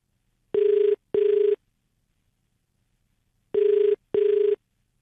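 Ringback tone of an outgoing call placed from a radio station phone-in: two pairs of short, buzzing electronic rings, the pairs separated by a long silence, loud and alone with no voices.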